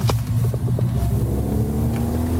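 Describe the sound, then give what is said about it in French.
A Renault Clio Rally 5 rally car's engine drones on a rally stage in Italy, a loud, continuous low rumble with a steady hum and a few faint clicks early on, with no voices. “Johan Leflaire, pilote de la voiture 24 Renault Clio Rally 5 du team HK Racing en Italie.”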